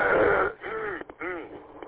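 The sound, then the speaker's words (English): Throat clearing by someone with a lingering frog in the throat: a rough, noisy burst is followed by two grating, voiced rasps with a wavering pitch, separated by brief pauses. “Still can't get this frog out of my throat.”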